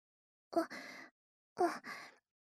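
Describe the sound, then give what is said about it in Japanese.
Gentle breath blown softly into an ear before ear cleaning: two short, quiet, airy puffs of about half a second each, separated by roughly a second, heard alone. “息をふうふうするの。あんまり強すぎないよう優しくふうふうしてね。”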